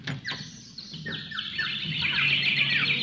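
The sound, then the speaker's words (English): Many birds chirping together, a dense tangle of high, quick tweets and calls that overlap more and more, building busier and louder toward the end. “Hey, must be a million birds here.”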